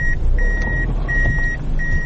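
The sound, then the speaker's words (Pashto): A black Toyota Fielder car manoeuvres back and forth to park on a road, its low engine rumble running under a repeating series of long, high electronic reversing beeps. “دا د سړک پر سر خپل تور رنګ فیلډر موټر شاو مخته کوي تر څو قانوني ودروي”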